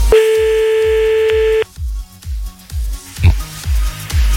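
On an outgoing telephone call that goes unanswered, a single steady ringback tone sounds for about one and a half seconds over a rhythmic, thumping music beat. The beat then continues alone after the ring ends.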